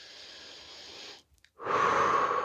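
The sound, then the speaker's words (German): A deep breath: two long, airy breath sounds separated by a short silent pause, the second louder and fuller than the first, with no speech. “Ja, atme mal tief durch.”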